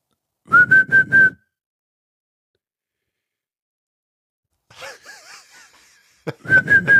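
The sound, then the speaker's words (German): A person whistles in imitation of a bird's call, giving four quick high notes in a tight burst. After a long silence come softer wavering, breathy sounds, and then the quick whistled notes start again. “Dieser Vogel versüßt mir wirklich täglich mein Leben. In welchem Rhythmus macht er denn dieses Geräusch? Kannst du das mal so, also wirklich jetzt mal so, kannst du das mal mehrfach machen?”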